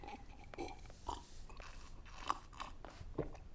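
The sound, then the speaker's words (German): Bread and biscuits being eaten make faint, irregular crunching and chewing. A few sharper bites stand out over softer mastication, with no talking. “Sie weint, isst, weint, spült Brot und Kekse mit Kamillentee und Tränen runter.”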